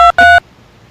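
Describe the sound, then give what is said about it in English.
Telephone keypad tones while dialing a room number: two short, loud, bright dual-tone beeps in quick succession, the second slightly longer, followed by quiet line hiss. “I dialed 108 now, second time.”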